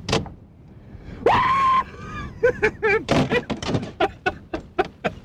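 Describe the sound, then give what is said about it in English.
A voice imitates a lumberjack's hoop call, once used on the river when log jams were broken up. It is a single loud, sustained high whoop that rises and then holds before breaking off, followed by talking. “you'll hear a hoop. A hoop. A hoop. Why a hoop? Well, it goes back to the old lumberjack days.”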